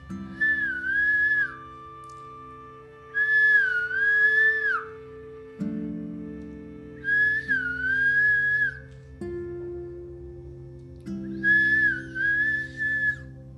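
Human whistling that imitates a koel bird: four clear, high whistled phrases, each opening with a rising swoop before holding and trailing off, separated by pauses over quiet sustained background music.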